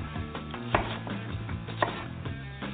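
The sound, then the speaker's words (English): A chef's knife cuts down through an onion to the base of the root. Soft, faint cutting sounds run throughout, with a couple of sharper knocks of the blade. “With the weight of the blade to cut through that onion to get to the base of the root.”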